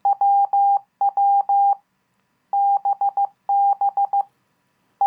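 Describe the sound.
Morse code keyed at 15 words per minute: a steady mid-pitched beeping tone broken into short and long elements, grouped into characters with brief silent gaps between groups, heard alone without any voice.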